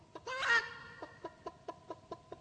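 Hens cluck in a henhouse: a drawn-out, raspy squawk comes first, then seven short, evenly spaced clucks follow in a steady rhythm, all fairly soft.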